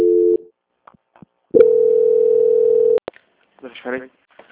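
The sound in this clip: A telephone call transfer tone: a short steady beep, then a longer unbroken tone lasting about a second and a half, followed by faint clicks and a brief voice.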